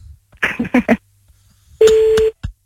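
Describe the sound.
A telephone number is being redialed on a phone line: a brief stretch of talk comes first, then a single steady electronic tone lasting about half a second, followed by a short click.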